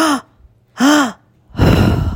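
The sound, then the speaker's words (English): A breathing demonstration: two quick, audible inhales through the mouth, then a longer, breathy exhale, also through the mouth. The three breaths are fairly loud, heard alone and evenly spaced. “So I'll do it for you. It's two inhales, one exhale all through the mouth.”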